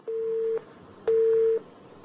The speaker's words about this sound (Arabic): طيب قطع اتصال.